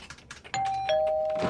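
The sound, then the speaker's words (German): An office doorbell rings in the morning with a two-note chime: a clear tone strikes, then a second, slightly lower tone follows and rings on to the end, preceded by faint soft rustling. “Wer klingelt denn da?”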